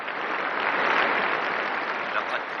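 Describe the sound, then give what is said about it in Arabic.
Applause from the audience at a Science Day ceremony, carried live over a radio: dense, steady clapping of many hands that holds at an even level from start to finish with no voices. “أنا سمعت الخبر دلوقتي بنفسي من الراديو، الحفلة بتتزع دلوقتي على الهوا. مبروك يا طه، أنا جبت الراديو هنا عشان نسمع بقية كلمة الرئيس.”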